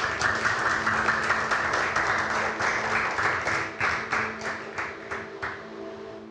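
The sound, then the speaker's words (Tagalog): Church audience applauding: dense, sustained clapping that gradually thins into sparser, separate claps and fades toward the end, with a low hum beneath. “Can we give God the best clap?”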